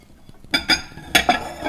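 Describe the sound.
Ceramic plate and bowl being handled, with four short, sharp clinks that come in two quick pairs. No talk.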